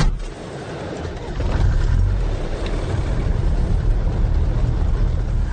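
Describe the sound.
Engine rumble of an old red car on the move, a steady low drone with road noise that grows a little fuller after the first second and then holds evenly, with no voices.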